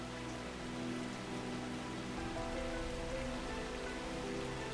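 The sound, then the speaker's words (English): Heavy rain falls outside a cave, an even, dense hiss of drops pattering on surfaces. It holds at a constant level throughout, with no voices. “you're standing outside a cave. The rain thundering from the heavens high above you.”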